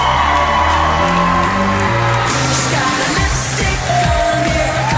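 A crowd cheers, whoops and screams loudly to welcome Jedward on stage at 98FM's Best of Dublin Awards, a sustained roar with a music bed pulsing underneath.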